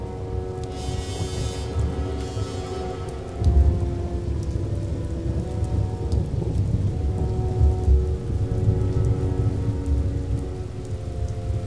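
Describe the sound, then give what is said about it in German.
Thunderstorm with heavy rain: a dense, steady downpour runs throughout beneath low, rolling thunder, with one stronger rumble swelling early on. “Die Gewitter blieben vor der Elbe stehen, wie in früheren Zeiten. Die Wassermassen aus diesen Wolken fielen auf die”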